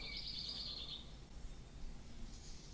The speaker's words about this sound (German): und es ist ziemlich laut. Die Vögel sind schon wach.